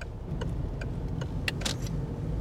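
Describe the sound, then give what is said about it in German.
A car setting off: a steady low engine rumble runs throughout, with a few light, crisp ticks and clicks on top. “Dann fahren wir mal los und schauen, was wir in Kaumberg erleben werden.”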